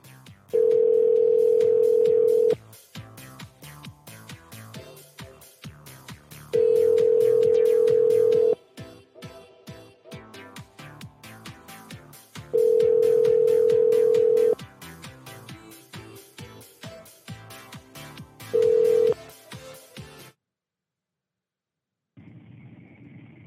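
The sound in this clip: A telephone line rings out on a call to an older number: four steady, low ringback tones of about two seconds each, the last cut short, with busy noise between them, then a brief silence and a faint tone.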